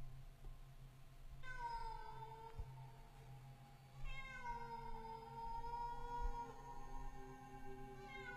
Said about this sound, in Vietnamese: Tiếng mèo kêu, mỗi lúc một to.